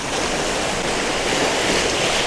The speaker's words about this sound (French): Il y a un petit peu de vent, mais pour une fois il ne pleut pas. Il y a même presque un rayon de soleil. J'ai le vent dans le nez. Je marche au bord de cette plage.